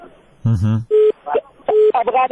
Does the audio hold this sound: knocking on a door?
no